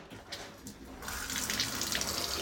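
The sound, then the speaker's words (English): Sparkling water runs from a kitchen tap with a faint, steady hiss of flowing water. After about a second the flow turns louder and brighter, gushing with a spattering texture. “That, ladies and gents, is sparkling water out of a tap.”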